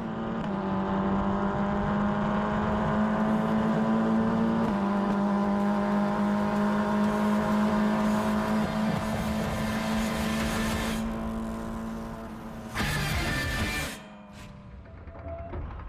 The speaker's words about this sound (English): So there was Hunter Yeany in action, and as you can see, it's wheel to wheel stuff.